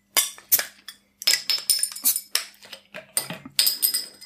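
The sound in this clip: Sharp glass clinks and bottle handling as a bottle of Bavarian beer from the Tegernsee brewery is opened and glasses are knocked together. Many short, bright clinks and knocks come in an uneven rhythm, with no talking.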